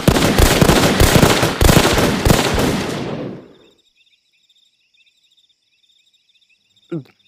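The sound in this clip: Gunfire from a group shooting on command in an audio drama: a dense, roaring burst of rapid shots for about three seconds that fades out, then quiet insect chirping and a single dull thump.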